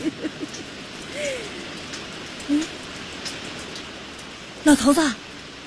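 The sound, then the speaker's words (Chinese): Steady rain falling, a continuous soft hiss throughout, with a few brief voice-like sounds rising over it near the start, middle and end. “老头子下雨了，下雨了。”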